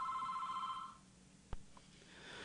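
A telephone rings for an incoming caller on a call-in radio show: one steady electronic tone sounds for about a second, then quiet follows with a single soft click.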